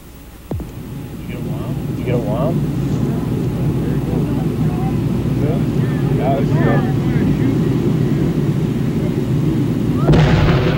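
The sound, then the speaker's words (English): A whale carcass on a beach is blasted apart with explosives, with spectators on the sand dunes: a sudden boom early on, then a loud, sustained roaring rumble with voices over it. “Our cameras stopped rolling immediately after the blast.”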